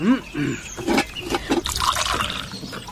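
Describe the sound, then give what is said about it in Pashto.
Tea poured into a cup, a trickling, splashing stream of liquid heard alongside people talking. “چنارګله چای وګړه خوشته کړه او ولې نشته دا دی اوس یې اچوم”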